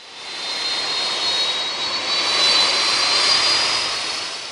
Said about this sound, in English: DC-10 jumbo jets, the kind of passenger airliners you might once have ridden to London. They swoop down at strategic moments over the firefighters on the ground.